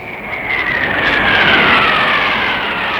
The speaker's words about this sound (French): allez, hop, c'est le jet.